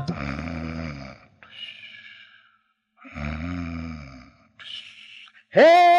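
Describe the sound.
A voice imitates snoring in a few drawn-out, throaty bursts separated by short pauses, with the final burst louder and rising in pitch.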